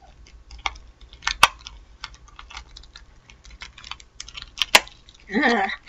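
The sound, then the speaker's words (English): Tough plastic snack packaging, stiff like a cassette-tape case, being pried open: scattered small clicks and ticks with two sharp louder cracks, ending in a brief dense crinkling rustle. “hard to open. Tough plastic packaging, kind of like a cassette tape.”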